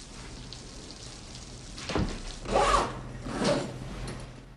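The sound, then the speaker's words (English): A bag is zipped up in a bathroom, making a few short, rasping zipper strokes over low background noise. “Jim zips up his bag and slings it over his shoulder, then leaves”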